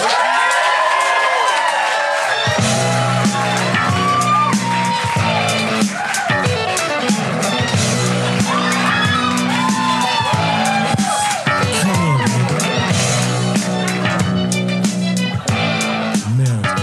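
Audience cheering and whooping for the host at a live show, loud and sustained throughout, with dense crowd noise and scattered high yells.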